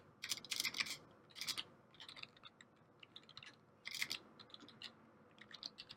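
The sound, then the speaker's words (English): Typing on a computer keyboard: faint, rapid key clicks in irregular clusters separated by brief pauses. “Oh, jeez, I can't type today.”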